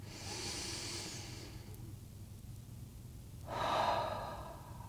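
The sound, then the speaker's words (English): A slow, deep breath: two long, airy breath sounds separated by a pause of about two seconds, the second one louder and fuller, both soft and alone without talk. “If you would like, you can join me in taking a nice deep breath to transition into our time together.”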